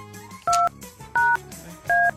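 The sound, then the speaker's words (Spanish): Keypad tones as a phone number is dialed: three short, bright two-pitch beeps at an even pace, each lasting about a quarter second, loud against a low background murmur. “Vamos a ver, le voy a marcar a alguien. A ver si nos contesta.”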